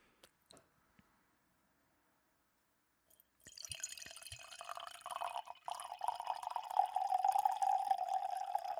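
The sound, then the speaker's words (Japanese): Red Gamay wine is poured. A few faint clicks and drips come first, then a steady gurgling stream of liquid runs for about five seconds with no talk. “はい、これ注いでいただきました。 はい、 赤ワインですね。”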